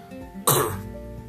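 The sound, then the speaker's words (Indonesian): A single short cough from a person with a cough, an abrupt loud burst that quickly fades back to quiet. “lagi batuk ini”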